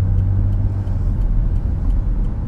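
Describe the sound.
Steady low road rumble from a car as another vehicle overtakes it, with a constant drone of engine and tyres that shows no clear swell. No one speaks.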